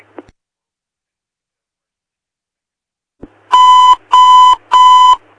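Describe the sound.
An emergency dispatch pager gives its alert: a faint click, a pause, a second click, then three long, evenly spaced electronic beeps. The beeps share the same steady, bright, mid-high pitch and are loud, with no voices.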